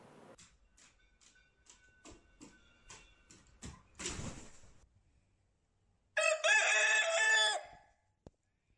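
A rooster crows once in a loud, bright burst, after a run of regular quiet ticks, a brief louder rustle and a short silence. A single faint click follows the crow.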